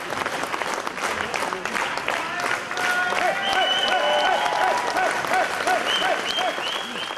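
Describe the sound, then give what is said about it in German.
A crowd cheers and applauds at an AfD political rally in the Gästehaus Spiegelsberge as the candidate enters: dense, continuous clapping and cheering that holds loud and steady for about seven seconds. “Wie ein siegreicher Matador zog Ulrich Siegmund unter lautem Jubel in das Gästehaus Spiegelsberge ein.”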